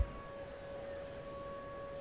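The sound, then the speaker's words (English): A tornado siren sounds during a baseball game in Minneapolis, a steady, sustained tone holding one level pitch throughout, heard alone without talk. “going to pitch through this tornado siren”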